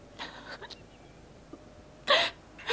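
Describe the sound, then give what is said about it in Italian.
Crying from a distressed young woman: a few short, breathy sobs and gasping catches, faint at first, then two stronger sobs near the end. “perché piangi?”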